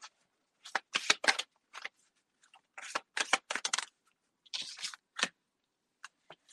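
Cards are shuffled for a love card reading: irregular bursts of crisp riffling and flicking, many short rustles in quick clusters separated by brief pauses, with no voices.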